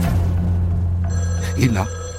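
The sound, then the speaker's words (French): A telephone rings, its bright, high, repeated ringing tones coming in about halfway through over a steady low drone. “Et là, le téléphone se met à sonner.”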